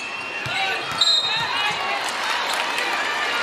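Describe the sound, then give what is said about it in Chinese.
Basketball dribbled during a game involving Spain, several rhythmic bounces thudding under a steady crowd and a talking voice. “夹击，但是博格斯运球有点多，”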